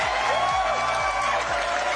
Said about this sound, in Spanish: un aplauso aquí especial para mi Ross